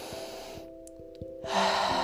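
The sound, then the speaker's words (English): A slow, conscious breath drawn in through the nostrils makes an airy, rising hiss that grows louder toward the end, over soft sustained background tones with gentle pulses. “the conscious breath in through your nostrils”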